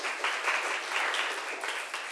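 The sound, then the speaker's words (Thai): Children in a Thai language class clap for themselves after answering a quiz question, a dense, steady burst of applause that holds evenly through its brief length without pause. “ปรบมือตัวเองหน่อยค่ะ”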